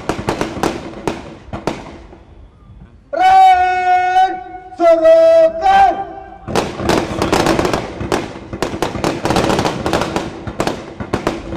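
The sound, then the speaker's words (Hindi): Ceremonial rifle volley, a feu de joie, at a military parade: many rapid, rippling cracks of gunfire, then a band plays a short sustained phrase, then another long ripple of shots. “द्वितीय हर्ष fire की तैयारी, band रावगान की धुन का दूसरा भाग बजाएगा।”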